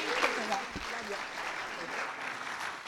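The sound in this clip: Audience applause welcoming a speaker to the stage at a church gathering: a steady, fairly faint wash of clapping that runs throughout, with faint voices mixed in.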